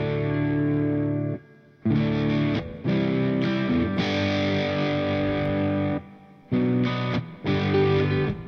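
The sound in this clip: Electric guitar through an Orange Thunder Verb 200 amp on its clean channel, gain at three quarters with a little reverb, ringing out loud sustained chords in several phrases separated by short gaps.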